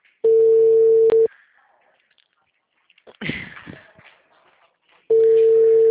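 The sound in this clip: Ringback tone on an unanswered phone call: two long steady mid-pitched tones about four seconds apart, with a brief voice in the silent gap between them.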